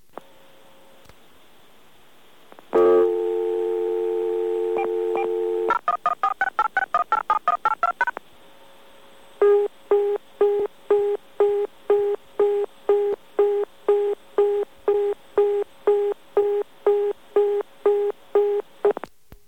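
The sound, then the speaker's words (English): A telephone dials an international number. After a faint start, a steady tone sounds, then a rapid string of touch-tone digits plays, a brief pause follows, and a busy signal begins: many evenly spaced, identical beeps repeating to the end. “That's a busy signal over there, and if you notice, that went through almost immediately.”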